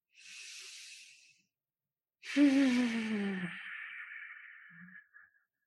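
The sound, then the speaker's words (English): A deep breath in and out during a guided meditation: a soft, airy inhale of about a second, a short pause, then a longer, louder exhale that begins with a voiced sigh falling in pitch and fades into breathy hiss. “So the first breath, breathe deeply.”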